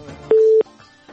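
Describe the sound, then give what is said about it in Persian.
A telephone tone sounds after a phone call is cut off: one loud, steady, mid-pitched beep lasting about a third of a second, then a fainter tonal trace. “بله تماسشان متاسفانه قطع شد.”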